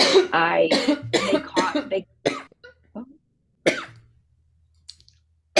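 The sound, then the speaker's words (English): Several short, harsh coughs break in after a stretch of speech, with brief quiet gaps between the bursts and a few faint clicks near the end. “Just had a cough a bit”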